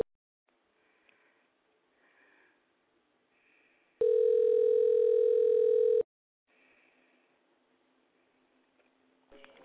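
A telephone dial tone sounds as a loud, steady, two-second tone between stretches of faint low rustling, and a brief click follows near the end.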